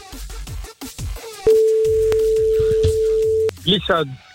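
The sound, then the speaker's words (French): A single steady, pitched telephone ringing tone of about two seconds sounds while a call is placed to a listener. People talk before and after it. “On y va, c'est parti, on l'appelle.”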